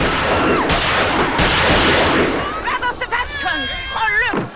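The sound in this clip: Gunshots fired by a cameraman during filming: a few sharp, loud bangs over a noisy background in the first two seconds, followed by people talking.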